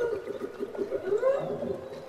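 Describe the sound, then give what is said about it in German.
Whale song recorded off the coast of Alaska: continuous low, moaning tonal calls with sweeping pitch. A rising upsweep stands out midway, all at a moderate, steady level without voices. “An der Küste Alaskas nahm er den Gesang der Wale auf.”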